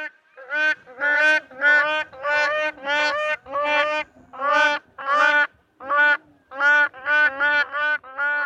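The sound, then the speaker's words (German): Black crowned crane calling: a long run of many harsh, nasal honking calls in quick, uneven succession, each loud and rich in overtones, with no talk. “Es gibt da den Schwarzhals-Kronenkranich, einer von zwei Kronenkranicharten und wir hören uns mal an, wie der klingt.”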